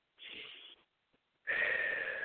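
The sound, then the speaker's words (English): A breath drawn in through the nose as a soft airy hiss, then after a short pause a louder, steady exhale out through the mouth. “one more breath in through your nose, out through your mouth.”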